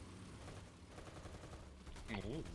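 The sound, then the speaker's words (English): Rapid machine-gun fire from a tank in a video game, a faint, dense run of quick bursts with a voice briefly heard near the end. “Ah, found the machine gun. I didn't know where it was. Oh, what's the machine gun? What button's that? Number one. Spacebar.”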